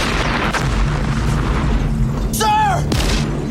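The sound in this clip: Tank cannon fire in a war film: a heavy boom lands near the end over a steady low rumble that runs through the whole clip.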